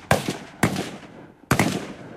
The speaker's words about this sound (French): Immediate return of fire. Le tir, et ils retournent le tir immédiatement.